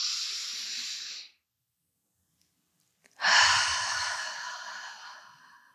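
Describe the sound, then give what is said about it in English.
Slow, deep breathing through the nose during a guided breathing exercise: two long, airy rushes of breath separated by about two seconds of silence. The second starts louder and gradually fades. “Focus on the sensation of the air moving through your nose, your chest rising and falling.”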